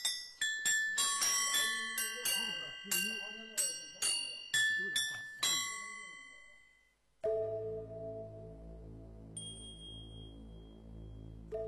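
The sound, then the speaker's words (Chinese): A yunluo, the Chinese cloud gong with small tuned gongs used in traditional Buddhist ritual music, is struck in a rapid series of many bright, ringing notes at varying pitches, with voices underneath, before a sustained low droning tone takes over. “这叫云锣。”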